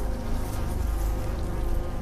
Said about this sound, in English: He looks up at a beehive in the eaves of the roof.